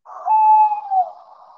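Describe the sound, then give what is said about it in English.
Tawny owl call: a single drawn-out hoot, clear and fairly loud, holding a steady mid pitch with a slight waver before fading into a soft breathy tail. “So this is a tawny owl. They do make a variety of different noises.”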